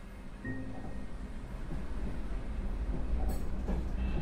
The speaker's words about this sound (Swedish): Vi ankommer strax Göteborgs centralstation.